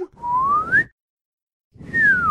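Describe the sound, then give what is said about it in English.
A slide whistle effect over a car jump in a film: one smooth rising glide, a brief silence, then a falling glide, both loud and clear. “they put a slide whistle over this jump.”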